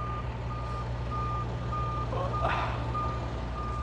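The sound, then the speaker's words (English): A loud truck with reversing beeps: a steady, mid-pitched beep repeats at an even rhythm over a heavy, constant low engine rumble. “That's a really loud truck. And of course it has to beep. Everything has to beep.”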